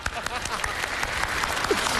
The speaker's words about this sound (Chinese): 您各位听这什么就鼓掌啊？